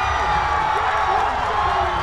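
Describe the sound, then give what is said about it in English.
Crowd cheering in downtown Chicago as Barack Obama is declared president-elect of the United States, a loud, dense roar of voices with whoops and shouts that holds steady throughout. “At 10:01 p.m. local time, Barack Obama was declared president-elect of the United States, and the crowd erupted.”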